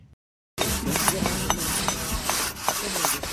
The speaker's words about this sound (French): Vous entendez gratter. Le bruit du monde ce soir est en Palestine avec les 20 ans d'un chantier exceptionnel dans un lieu partiellement coupé du monde.